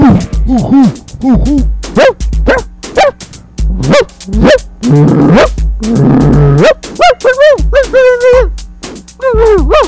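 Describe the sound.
Dog barking loudly in a steady rhythmic series of many repeated woofs, with a rougher, denser stretch midway and higher, drawn-out yelping barks toward the end.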